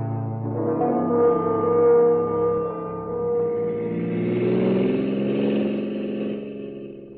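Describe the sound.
Car engine humming while driving, a steady mid-pitched drone with harmonic tones that slowly waver and shift in pitch, with no talking over it.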